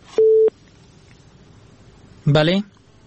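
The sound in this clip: Telephone tone after a dropped call: a single steady mid-pitched beep lasting about a third of a second, then quiet, then a brief burst of voice near the end.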